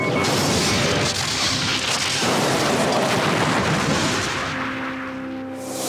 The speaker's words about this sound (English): Shields are dropping. The Borg cube is firing.